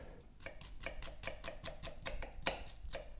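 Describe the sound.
A dull kitchen knife chops food on a board in a steady, even rhythm: many crisp, sharp knocks in quick succession, fairly faint, with no talk.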